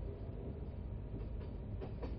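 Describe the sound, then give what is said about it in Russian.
A fast-moving train clatters over the rails with a steady low rumble, and a few soft rhythmic clicks of the wheels come through toward the end. “Поезд шел довольно быстро, негромко и размеренно выстукивая свою обычную песню. Та-дам, та-дам,”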